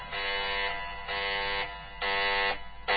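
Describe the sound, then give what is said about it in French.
Alarm sirens go off inside a center after an intruder alert, sounding as harsh, buzzing blasts repeated about three times with short dips between, alone with no voices. “L'alerte. L'alerte. Professeur, qui a déclenché les sirènes?”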